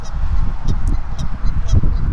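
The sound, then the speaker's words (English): Geese honking on partly frozen water near a weir, with many overlapping honks forming a dense, continuous chorus over low rumbling noise. “some of the geese by the row marker, they want to go over by the weir, but a lot of geese are protesting. Honk, honk, honk, honk, honkity honk.”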